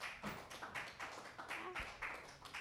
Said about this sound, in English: Give a round of applause for Joel, your host.